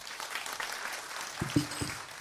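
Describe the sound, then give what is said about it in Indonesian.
Audience applause for Purworejo at a speech event: a faint, even wash of clapping with a brief vocal sound rising over it near the end. “Tepuk tangan untuk Purworejo.”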